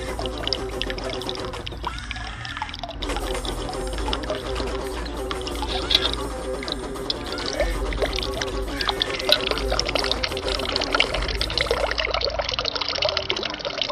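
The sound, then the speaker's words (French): Water flows and pours steadily in a fountain, a continuous, fairly loud rush and splash that holds the same level from start to finish. “Toujours l'eau qui coule. Dans la fontaine de Cheyou.”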